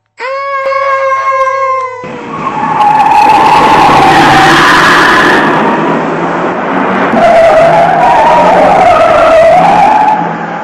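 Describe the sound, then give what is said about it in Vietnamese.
Car brakes screech in a street: a long, loud tire squeal with a harsh, wavering high whine that runs for about eight seconds with no voices. “Từ dưới phố, anh nghe tiếng người la và tiếng xe thắng đánh két một cái.”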